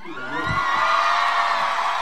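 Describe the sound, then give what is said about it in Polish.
Studio audience at a live radio music chart show cheering and whooping, a dense, sustained swell of raised voices that holds steady and loud from start to finish. “Do państwa mam teraz w żywcu prośbę o naprawdę duży taki aplauz, spazmatyczne oklaski”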